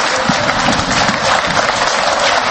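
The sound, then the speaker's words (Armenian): Believers applauding to welcome leaders of the Russian Orthodox and Armenian Apostolic churches at Etchmiadzin Cathedral. The clapping is loud, continuous and dense throughout. “Ահա այսպիսի ծափողջությունների, ինչպես նաև մայրաթորի զանգակատան ղողանջների ներքո դիմավորեցին հավատացյալները”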